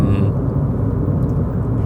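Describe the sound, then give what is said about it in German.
A car being driven gives off a steady low rumble, heavy in the bass and unchanging across the short stretch, with no other distinct sounds on top. “bleib gerade eine Runde dabei, fahr noch ein, zwei Sekunden mit mir Auto und dann hören wir uns gleich wieder.”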